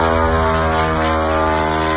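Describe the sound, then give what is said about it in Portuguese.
Steady, loud buzzing engine drone of a kamikaze drone launched by Ukraine, flying in to strike a Russian oil refinery. The harsh, even propeller whine holds constant throughout with no voices. “registraram a chegada dos drones kamikazes disparados pela Ucrânia.”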